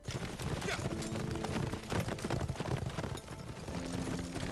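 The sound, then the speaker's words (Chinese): Galloping hoofbeats of a troop of horses riding toward a city, a dense, rapid clopping rhythm that stays loud and steady throughout. “只见一队人马伴着马蹄声向城下奔来”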